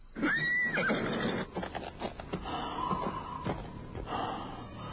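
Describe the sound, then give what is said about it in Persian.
A horse neighs as its rider mounts and gallops off toward Kufa: one long, loud whinny at the start, followed by snorting and breathy sounds. No voices. “شبلی بر اسب می نشیند و می تازد به سوی کوفه”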